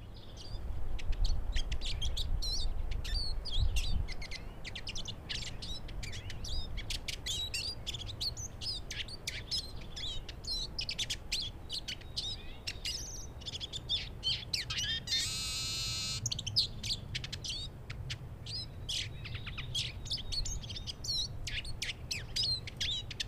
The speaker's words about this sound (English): listen carefully to their attractive song, and you'll notice a tlu tlu call, which is sweet and harmonious, especially when a flock of siskins are gathered together.